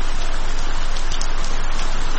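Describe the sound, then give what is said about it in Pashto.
Heavy rain pours down in a loud, dense, unbroken hiss of drops with no let-up. “باران تیز شو، داسې شرشوری شو لکه ناوې چې له اسمانه راخوشي شي.”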